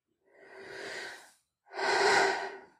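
A person breathes out slowly and softly twice during a guided stress-release relaxation exercise. Each airy exhalation swells and fades, and the second is fuller and louder than the first.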